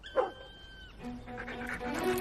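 A dog barks faintly, with a brief bark near the start and further quiet vocal sounds toward the end, set among steady tonal background sounds.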